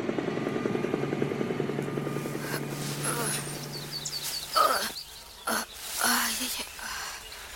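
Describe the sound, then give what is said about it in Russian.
Helicopter from a film scene flying away, a steady low droning hum with rotor noise that holds for several seconds before giving way to a few short, louder bursts of other sounds. “Вертолет улетает.”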